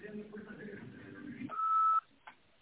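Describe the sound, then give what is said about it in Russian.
A voicemail beep sounds over a telephone line just before a message can be left. A voice speaks first, then a single steady, mid-pitched tone holds for about half a second and cuts off abruptly. “Прошу вас, оставьте информацию после гудка, и я свяжусь с вами, как только это представится возможным.”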